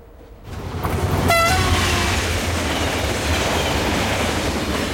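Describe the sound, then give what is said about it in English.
A train rumbles through a level crossing at night: a loud, broad, continuous roar that swells over the first second and holds steady, with a brief high tonal blast early on. “Later, night falls as the train rumbles through a level crossing.”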